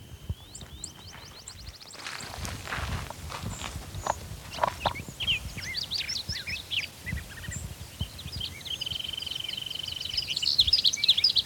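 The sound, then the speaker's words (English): Bird calls ring out as quick, high chirps in repeated runs at the start and again toward the end, over a low rumble of background noise. “It's actually a different bird. I think that's the one.”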